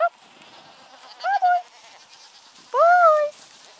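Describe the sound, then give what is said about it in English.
Goats bleating, part of a herd rented out for weed control in the Bega Valley. A clipped bleat opens, then two clear, wavering bleats rise and fall over faint background hiss. “My name is Elizabeth Larson. I'm the owner of a business called Herds for Hire, and we rent out our herd of goats to people that would like to get”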